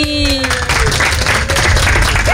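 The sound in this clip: Applause from an audience at a dog competition as four dogs (a miniature dachshund, a Maltipoo, a Siberian Husky and a Corgi) leave. The clapping is dense and steady throughout, with a short tonal voice-like sound at the very start.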